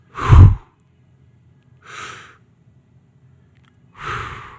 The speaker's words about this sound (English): Two deep breaths. You got it.